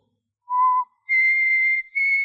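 A person whistles three clear, pure notes with no other sound: a short lower note, then a longer, noticeably higher one, and a shorter final note at about that same higher pitch.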